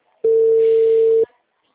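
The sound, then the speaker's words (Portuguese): A telephone busy signal on a dialed call: one loud, steady, mid-pitched tone lasting about a second, starting and stopping abruptly, with nothing else around it. “O número discado não está atendendo. O número está ocupado.”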